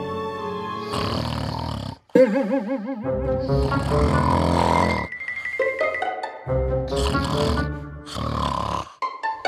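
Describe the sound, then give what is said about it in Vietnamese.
An elderly grandfather snores loudly in a garden, with several long rasping, rumbling breaths carrying wavering, gurgling tones, broken by brief pauses. “là tiếng ngáy của ông nội hay lắm. Cái âm thanh quen thuộc đến đáng ghét đó, nó xé toang cái không gian thơ mộng của khu vườn.”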